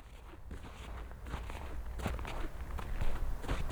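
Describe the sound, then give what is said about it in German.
Faint footsteps of a slow, deliberate walk through a garden, with several soft, unhurried steps that grow slightly louder as they continue. “Sie beginnen einen bedächtigen Spaziergang durch ihren Garten.”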